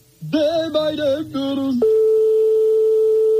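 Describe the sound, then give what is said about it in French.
A phone call to a private home rings out in a radio phone-in game, heard as a steady, unbroken mid-pitched ringing tone held loud and alone after a brief burst of shifting tones. “comme on est chez des particuliers, forcément, ça sonne dans le vide longtemps et ça peut tomber sur un répondeur.”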